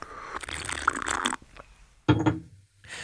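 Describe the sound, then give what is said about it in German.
Sipping espresso: a longer slurping draw followed after a short pause by a second, briefer sip, both fairly close and without talk. “jetzt nehme ich noch einen genüsslichen Schluck von meinem Espresso”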